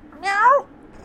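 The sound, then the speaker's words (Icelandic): A cat being petted at a ski lodge gives a single clear meow of about half a second, mid-pitched and moderately loud, with quiet background before and after. “Þar hittir Ryan köttin Snulla og gælir við hann.”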